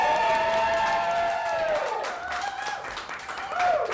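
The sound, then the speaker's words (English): A live audience at an event at the Pleasure Chest in New York City screams and cheers with high whoops and a little clapping. The crowd noise is loud throughout, dips briefly midway, then swells again. “by screaming in ecstasy so that we can get that on the microphone, that would be really great. So let's do it one more time.”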